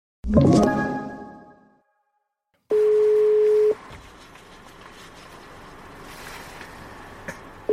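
A telephone ringing tone on an outgoing call: a single steady, mid-pitched tone about one second long. It comes after a brief bright harmonic sound and is followed by the low hiss of an open line.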